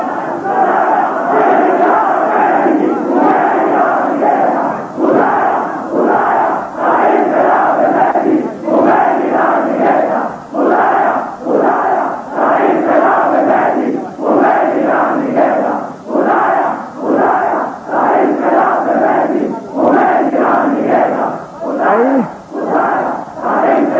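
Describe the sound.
A large crowd chants a slogan in unison at a Shia religious-political gathering. Loud, rhythmic shouted bursts repeat many times in a steady, driving cadence.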